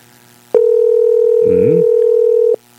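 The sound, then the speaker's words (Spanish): Steady telephone dial tone heard while placing a call. It switches on abruptly, holds an unbroken, level pitch for about two seconds, then cuts off, with a brief voice mixed in over the middle. “Estamos llamando a Percio Osorio.”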